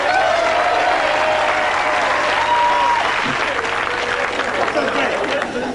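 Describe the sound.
Comedy club audience applauds to welcome a comedian on stage: dense, steady clapping with crowd noise that fills about six seconds at an even, loud level.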